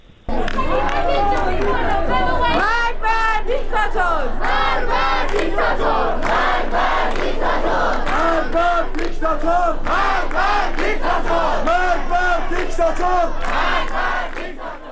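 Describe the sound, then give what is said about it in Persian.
Protesters chant as a crowd during a university protest at the University of Kurdistan in Iran. The loud, rhythmic chanting of many voices runs without a break through the whole clip. “تحسن و اعتراض در دانشگاه هم ادامه داشته، یک صدا هست از دانشگاه کردستان، اون صدا رو هم بشنویم”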